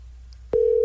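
A telephone line tone after dialing cuts in abruptly with a soft click and holds as one steady, loud, mid-pitched note to the end, over a faint low line hum.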